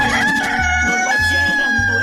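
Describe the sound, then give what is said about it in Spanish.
A rooster crows loudly in a long, drawn-out call that fills the whole moment, its harsh, strained tone holding steady before trailing off. “Mientras que el gallo canta,”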